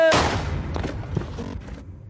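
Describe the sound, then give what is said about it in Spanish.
A handgun gunshot rings out in a street shooting in Culiacán, Sinaloa: one sharp, loud crack at the very start, followed by a long decaying tail and a few fainter scattered knocks. “con la frialdad y la agilidad de un pistolero a sueldo, saca un arma y le da un tiro en la cabeza”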